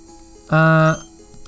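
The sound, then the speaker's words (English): A potion is used on Oshawott in a Pokémon video game, setting off one short synthesized chime: a steady, buzzy, rich tone lasting about half a second that sounds alone against near silence. “Okay, I'm gonna use a potion on Oshawott.”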